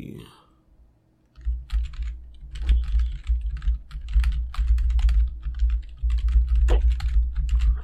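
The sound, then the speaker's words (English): Typing on a computer keyboard to search for a book title: many quick, uneven key clicks running over a low, steady hum. “I gotta type it in to see if the title comes up.”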